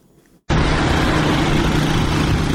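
Motorcycles and cars of armed Taliban fighters in Afghanistan: a loud, dense engine roar starts abruptly and then holds as an unbroken drone with a low hum underneath.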